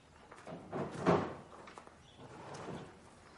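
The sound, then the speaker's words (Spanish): The rear boot of a white van is opened in a village street of white houses, giving a few faint soft clunks and a brief, slightly louder thud in the middle. “abre el maletero”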